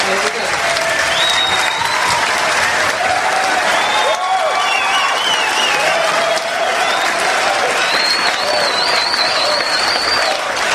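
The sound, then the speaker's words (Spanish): Loud crowd applause for a band at a concert, a thick continuous roar of clapping with shouts and whistle-like cheers rising above it and voices mixed in, sustained for about ten seconds. “Un aplauso.”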